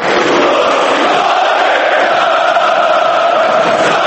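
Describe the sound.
Partizan Belgrade football fans chant a supporters' terrace song at the club's stadium: a loud, dense mass of voices singing steadily with no break.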